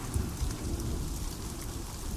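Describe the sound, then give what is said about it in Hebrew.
Rain falling in a steady, dense patter of drops with a soft low rumble beneath, holding an even level throughout the short stretch with no voices. “טיפות של גשם”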